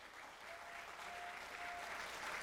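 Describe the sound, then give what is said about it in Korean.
An audience applauds an encore by traditional Korean singers. The clapping is a dense, even wash of many hands at a fairly quiet level, building slightly and then holding steady throughout. “박수 막 보내시네.”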